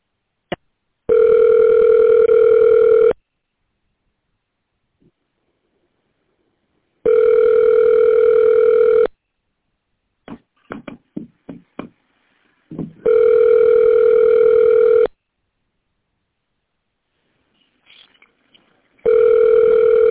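A telephone line rings while a call goes through to another extension. Long, steady buzzing tones of about two seconds each repeat at regular intervals with silent gaps: three full rings, the start of a fourth, and a few faint clicks between them.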